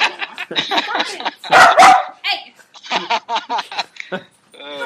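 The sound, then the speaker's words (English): Barks and yips from a puppy cut in amid ongoing conversation, a few sharp, bright bursts clustered near the middle, with people talking before and after. “So the dog wants to join in here. That's the puppy for you.”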